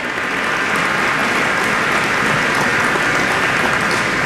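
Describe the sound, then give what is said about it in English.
Audience applause for the workers building the Summit Connects 135-mile high-speed fiber network: a dense, steady wash of clapping that holds at an even, loud level throughout, with no voices standing out. “Can we hear a hand for the folks that behind the scenes that are working on this stuff?”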